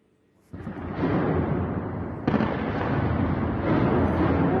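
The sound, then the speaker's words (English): Loud blasts from air defense systems firing in a capital city. A sudden booming onset swells into a continuous rumbling roar, and a second sharp jolt follows partway through. No voices are heard. “Iranian channels have published this footage on social media claiming to show the activation of air defense systems in the capital. It shows several bright flashes accompanied by loud blasts in the vicinity,”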